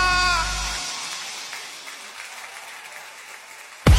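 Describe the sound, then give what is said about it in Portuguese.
Strong applause from an audience at a live musical event, a dense, steady clatter of many hands clapping that eases slightly in level, ending in a sudden loud burst. “palmas fortes pro que ele merece.”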